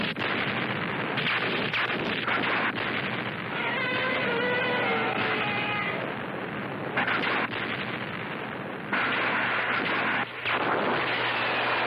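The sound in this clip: Gunfire opens up on command in a dramatic attack scene: a dense, sustained barrage of crackling bursts and booms that runs throughout without a break, with no talk.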